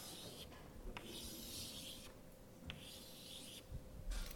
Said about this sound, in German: Ich würde jetzt einfach mal ganz einfach was aufzeichnen.